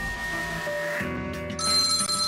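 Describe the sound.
A telephone rings with a tonal electronic ringtone, steady and moderately loud, turning brighter and a little louder in the last second, with no voices.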